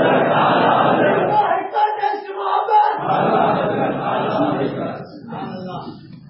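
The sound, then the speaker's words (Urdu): A crowd chants a religious slogan (naara) in unison during a sermon, a loud mass of voices shouting together for several seconds before easing slightly toward the end. “تھوڑا مجھے رعایت کے ساتھ نعرہ سنا دیجیے تاکہ میں زیادہ بول سکوں.”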